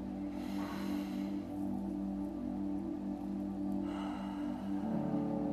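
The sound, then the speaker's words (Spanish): Slow breaths drawn in and let out through the nose, soft airy rushes that swell twice over a steady low humming drone, with no talking. “Vamos a respirar cinco veces, inhalando por la nariz y dejando ir por la nariz también.”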